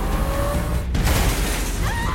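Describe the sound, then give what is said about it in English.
A Hummer smashes into debris, flips and rolls over during an off-road chase on a concrete track: dense, loud crunching and rumbling noise with a sharp impact partway through. “One of the Hummers smashes into some debris, flips, and rolls over.”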